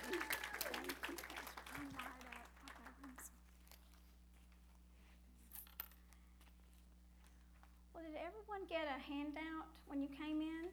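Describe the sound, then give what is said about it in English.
Applause from a church audience welcomes a speaker to the pulpit, starting as a dense patter of clapping that fades over a few seconds into near silence. A voice then begins speaking near the end. “Would you put your hands together and welcome Susan Hancock to the pulpit?”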